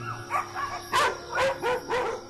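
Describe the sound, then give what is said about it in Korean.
Dogs barking at night, several sharp barks and yips in an uneven rhythm, fairly bright in pitch, heard with no talk. “밤이 되면 목청을 높이는 아이들. 이렇게 짖어도 뭐라 할 사람도 없고요.”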